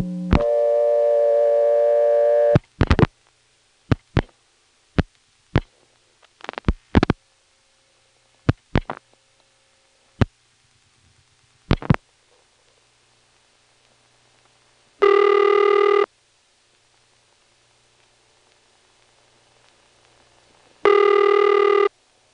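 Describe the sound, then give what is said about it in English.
Telephone exchange tones and dialing as 113 and then 10 are dialed into the service code selector: a steady harmonic tone opens, followed by many sharp dial-pulse clicks in groups, then two separate bursts of buzzing tone, with silence between. “First, let's see what's on the 0 level by dialing 113, dropping the sender, and then into the service code selector, we'll dial 10.”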